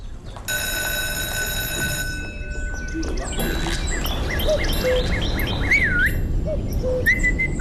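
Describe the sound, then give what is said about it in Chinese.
A person whistling in imitation of birdsong, a run of quick chirping and warbling notes with bright sliding pitches, heard over a steady low background rumble. “不许吹口哨，破坏纪律。”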